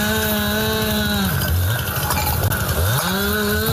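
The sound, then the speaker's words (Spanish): Brush-clearing power tools run at night as wildfire crews from Plan Infoca cut vegetation near Despeñaperros Natural Park. A loud, steady engine whine dips briefly twice in pitch as the cutting bites in. “Labores de desbroce que realizaban efectivos del Plan Infoca esta noche para tratar de frenar el avance de las llamas”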